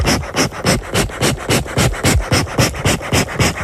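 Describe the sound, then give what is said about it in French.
Heavy, rapid panting breaths, loud and evenly rhythmic at about three per second, each a breathy hiss with no talk over it. “Et oui, ça souffle. On souffle aussi des fois le matin quand on se réveille.”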